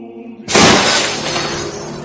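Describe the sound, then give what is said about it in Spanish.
Glass shatters as a crowd smashes market stalls in a bazaar: one loud sudden crash, then a long, slowly fading rattle of falling shards and debris. “En el bazar, una muchedumbre destroza los tenderetes.”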